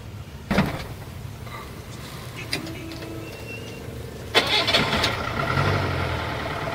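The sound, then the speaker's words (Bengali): A taxi's engine starts and the car pulls away: a brief cranking burst, then a louder surge as the engine catches and keeps running with a steady, rumbling drone to the end. “গাড়ি ছেড়ে দিল”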